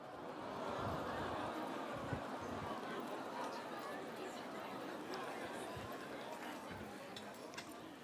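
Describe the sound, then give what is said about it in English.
A church audience greets one another as people are seated: a steady, dense wash of crowd chatter with many overlapping voices and no pauses. “as you're being seated, shake somebody's hand and say, welcome home.”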